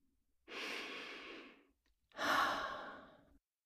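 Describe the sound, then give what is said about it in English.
A deep breath in and out, calm and slow: two long, airy breaths separated by a short pause, the second one starting stronger and then tapering off, with no talking. “Let's take a breath in and out.”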